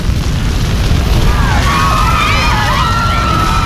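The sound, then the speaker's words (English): Roar of fire as oxygen ignites in a nightclub stairwell and flames burst upward, a dense continuous rumble with high wavering whistling tones rising over it in the second half. “The oxygen in the stairwell ignites. The flames burst up to the main floor.”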